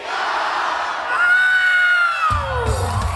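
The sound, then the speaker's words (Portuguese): A crowd cheers at an anime convention: a long, sustained whooping cry swells and then falls away, followed by a burst of louder, rougher crowd noise near the end. “Quando as colunas disparam a música gravada, o público vai ao rubro e canta em coro. Todos sabem a letra em japonês.”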